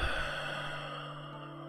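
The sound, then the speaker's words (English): A soft, sighing breath through the mouth during a guided relaxation breathing exercise. It is strongest at the start and tapers gently, with a faint, steady tone sounding underneath throughout. “Breathe in and breathe out your mouth.”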